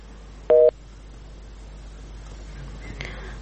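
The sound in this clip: A telephone busy signal sounds on a dropped caller's line: one short, loud electronic beep, then a fainter tone about two and a half seconds later over low steady hiss.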